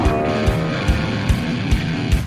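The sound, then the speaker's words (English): NASCAR race cars roaring around the Martinsville track, played on a television. A dense, continuous engine drone is broken by a regular series of low thumps. “So, yeah, we're watching this Martinsville race as we record this.”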